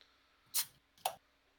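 A Kinship Brewing porter beer is opened with two short, sharp hissing snaps about half a second apart, faint and with no talk.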